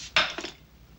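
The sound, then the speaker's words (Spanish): A plate is thrown down onto a table: one sharp, bright clatter, then a smaller rattling knock as it settles. The sound is brief and fairly faint. “Disgustado, Joe tira el plato sobre la mesa.”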